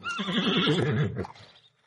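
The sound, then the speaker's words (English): A single horse on a farm whinnies, a bright, quavering neigh that wavers rapidly in pitch for about a second before tailing off into a breathy snort. “Horses, come and have a snack.”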